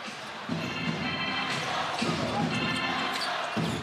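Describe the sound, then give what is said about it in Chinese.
A basketball is dribbled on the court during a game, giving a few dull, low thumps spaced evenly over a steady wash of crowd noise. “卢建林现在运球的速度很从容”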